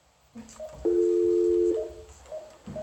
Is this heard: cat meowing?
no